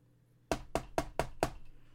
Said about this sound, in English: Knock on your door.